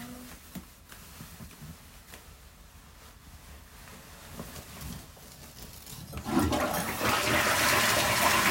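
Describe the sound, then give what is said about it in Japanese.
A toilet flushes away poop: after several seconds of faint low rustling, a loud, steady rush of water surges in and continues to the end without any voices. “うんちくん、バイバイ。流してきます。”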